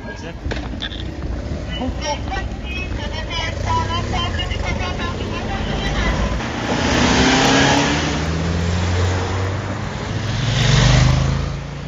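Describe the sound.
A car accelerates away as a government minister leaves to catch a train, apparently well above the speed limit. The engine roar builds in two loud surges, strongest near the end, with voices murmuring in the first seconds.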